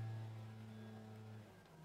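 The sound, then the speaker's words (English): A leaf blower running outside on a weekday afternoon gives a faint, steady droning engine hum with a tonal buzz. No voices are heard. “Oh, that's a leaf blower. Sorry, we apologise for the noise. There's a leaf blower.”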